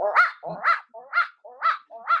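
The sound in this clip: A person's voice imitates a dog barking, giving five short, evenly spaced yelping barks in a steady rhythm. The barks are fairly loud, bright and alone.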